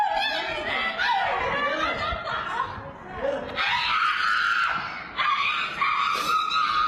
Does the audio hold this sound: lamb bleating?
no